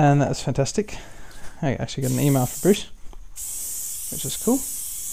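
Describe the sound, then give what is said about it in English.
Hissing spray of non-stick cooking oil sprayed into a pot, a bright, steady hiss that starts under a person talking and then carries on alone for a couple of seconds. “The sound you heard was some spray-on non-stick oil, which I was spraying into my pot”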